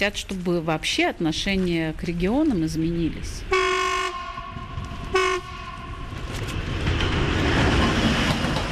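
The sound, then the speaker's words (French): A freight train heading north on a nearby railway at night sounds two horn blasts, a long one and then a shorter one, followed by a building rumble of rolling wagons. A voice speaks before the horn. “Sur la voie ferrée, toute proche, un train de marchandises file vers le nord.”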